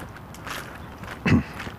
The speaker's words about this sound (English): Anyway, I'm up, I'm out, I'm walking.